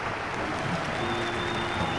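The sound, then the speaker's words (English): Members of Congress clap and cheer for a visiting foreign leader about to receive the Congressional Gold Medal: dense, steady applause from a large crowd fills the whole stretch at an even, sustained level. “Congressmen and women clap and cheer.”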